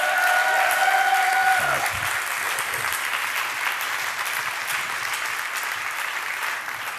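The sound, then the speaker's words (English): A church audience applauds during an evening service, a full, sustained roar of many hands clapping that stays steady and eases slightly toward the end, with a brief tonal sound at the start. “If you're happy to see yourself here, you can clap better than that.”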